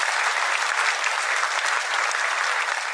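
Audience applause greets a guest being introduced on stage, a steady, dense wash of clapping that holds at an even level for the whole stretch, with no voices over it.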